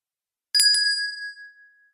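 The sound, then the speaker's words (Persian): A bell struck once during a quiet listening exercise, with a quick double attack and then a bright, high ringing tone that fades slowly over about a second and a half, heard alone. “وسط این 30 ثانیه، بدون اینکه قبلش بهتون بگم، من یه بار دیگه زنگو میزنم”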